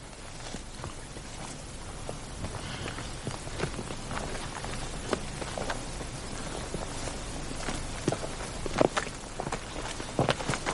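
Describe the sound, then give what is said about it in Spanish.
Two people's footsteps walk along a narrow forest path, a steady run of soft, scuffing steps over a constant background hiss, growing a little more pronounced toward the end, with no talk. “Mónica y Alex caminan por un estrecho sendero del bosque”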